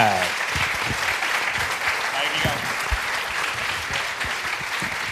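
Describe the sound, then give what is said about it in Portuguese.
Audience applause at an awards ceremony, a dense, steady wash of clapping from many hands that holds at an even loudness, with a voice briefly audible at the start. “Uma salva de palmas aqui para Samuel Lúria.”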